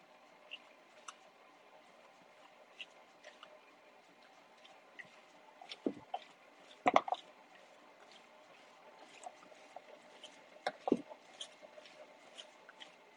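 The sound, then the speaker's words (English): A whisk spins in a bowl, mixing ingredients that include salt while cooking in the dark: faint, irregular ticks and scrapes, with a few sharper clacks in the middle and near the end. “I'm just kind of whisking all this together. Just kind of trying to whisk to the middle of the bowl. Now I'm going in the middle of the bowl and kind of just spinning the whisk around a little bit.”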